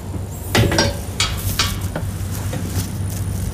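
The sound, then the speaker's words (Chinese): Handling knocks and rustles as a PM2.5 measuring instrument is placed into a smoke collection chamber for a straw-burning air-quality test; a few short clatters sound over a steady low hum. “下面我们把这个 PM2.5 测量仪器放到这个烟气采集室里面。”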